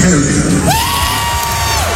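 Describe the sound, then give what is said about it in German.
A rock concert crowd on the Canadian side of Lake Ontario cheers and whoops loudly and steadily, with one high, sustained whistle-like whoop rising above the roar partway through. “Und das Publikum kanadischerseits hat es natürlich super abgefeiert.”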